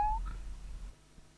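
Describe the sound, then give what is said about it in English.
A cat gives a single short, high meow that rises slightly in pitch, then fades into a faint, steady low hum. “Meow.”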